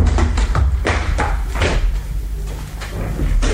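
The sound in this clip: A door is opened, heard as a few loud wooden thumps and knocks in an irregular sequence, followed by a quieter stretch and a couple more soft knocks.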